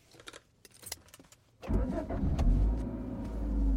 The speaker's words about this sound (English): Yeah, forget it. I'll drive. Seatbelts, everyone.